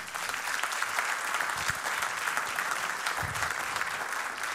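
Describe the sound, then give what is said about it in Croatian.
Applause for a tenor saxophone player after a musical piece: dense, steady clapping from many hands, a continuous hissing wash of claps at even loudness throughout, with no distinct voices standing out. “Jedan veliki aplauz za Vojkana Jocića na tenor saksofonu.”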